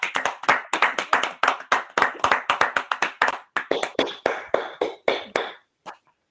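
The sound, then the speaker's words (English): Hands clap from a church audience welcoming a speaker, a brisk run of many sharp, distinct claps in an uneven rhythm that thins toward the end and stops with a final few scattered claps. “Let us welcome, put your hands together and welcome Reverend Joan Jacocks.”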